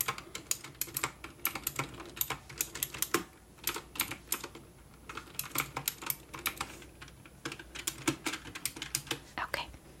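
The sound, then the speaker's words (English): Typing on a computer keyboard while entering inventory for a retro videogame store, soft quick key clicks in irregular bursts with short pauses, fairly quiet throughout. “And so then I'll go ahead and type it in.”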